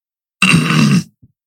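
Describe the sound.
A single throat clearing: one rough, low, rasping burst lasting about half a second, heard alone against silence and followed by a tiny faint blip.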